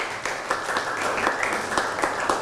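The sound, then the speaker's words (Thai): Students clapping for their classmates, a dense, steady patter of many hands applauding at an even level throughout, with no voices over it. “พระบรมธาตุชัยยาเอาปรบมือให้เพื่อนหน่อยครับ”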